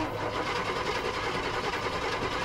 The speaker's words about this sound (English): And the Autocraft makes more than enough cranking amps to spin over the Big Block 454 for about 13 seconds.